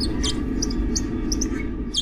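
Chirps from a mole rat colony, many short, faint high-pitched calls scattered irregularly over a steady low rumble.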